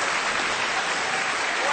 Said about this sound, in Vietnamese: Nếu ưng thì vỗ tay thật kêu mừng.